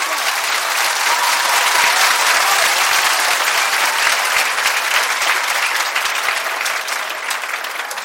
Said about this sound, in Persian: شکر خدا برای مادر پدرت محکم دست بزن.